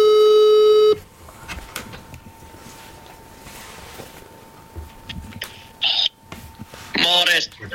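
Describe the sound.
Telephone tones as a call is placed: a loud, steady electronic tone for about a second, then quiet line noise with a faint thin hum, and short warbling ring bursts near the end.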